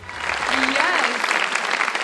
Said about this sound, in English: So let's put our hands together and give a warm Purpose Church welcome to Haley Tyler.